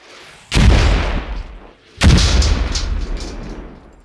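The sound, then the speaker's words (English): A Saab NLAW anti-tank missile fires and explodes, heard as two heavy, loud booms about one and a half seconds apart, each followed by a long rumbling decay. “We have a short video showing how these devastating anti-tank missiles work.”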